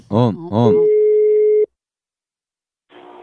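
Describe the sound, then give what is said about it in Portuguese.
A telephone call being dialled: after a brief voice, one steady telephone tone sounds for about a second and stops abruptly, followed by silence and faint noise. “Vou ligar pra Dalva”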